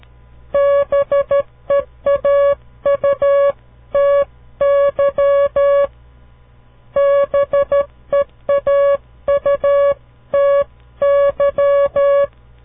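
Morse code spelling out the word beauty: a steady, high electronic beep keyed in short and long bursts, grouped letter by letter with brief gaps, with no voices.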